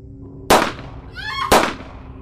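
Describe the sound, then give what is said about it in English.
Two sharp, loud gunshots from a gun, about a second apart, each a sudden blast that decays quickly over a steady low hum. “Imagine his horror and surprise when I shot them both.”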